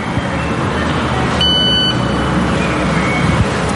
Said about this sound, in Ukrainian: Вона керує дверима та сигналізує про готовність до поїздки. Ми почули сигнал,